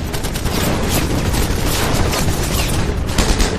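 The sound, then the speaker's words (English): Heavy gunfire from enemy German lines in a battle at a bridge, a dense, loud, unbroken barrage of overlapping shots and bursts lasting the whole clip, with no voices. “They are met with blistering fire from the German lines.”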